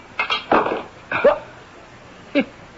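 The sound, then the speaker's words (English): A heavy wrench strikes an unbreakable window pane in a radio drama: a few irregular dull knocks and clanks, some with a brief metallic ring, the glass staying intact. “It bounced right off the window pane. Look, the glass isn't even cracked.”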